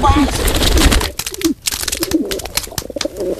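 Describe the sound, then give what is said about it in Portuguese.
Pigeons cooing in short, low, warbling calls repeated a few times, with a steady rustling noise running underneath. “pombas.”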